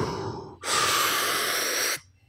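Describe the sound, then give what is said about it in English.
A single long, deep breath drawn in, a steady airy rush lasting over a second that starts and stops abruptly, heard alone with no talk. “Deep breath.”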